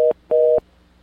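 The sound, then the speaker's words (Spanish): A telephone busy tone after a dropped call: two loud, steady electronic beeps of one pitch. The first is cut short, and the second lasts about a quarter second before silence. “Perdón, se cortó la llamada de la persona que tenía, si gusta volver a llamar.”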